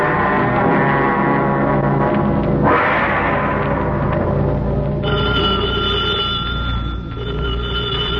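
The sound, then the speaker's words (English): A telephone bell rings in a police headquarters office scene of a mystery drama. The ringing is loud, steady and metallic, continues for several seconds and is heard alone, with no speech. “Is that the phone, Inspector?”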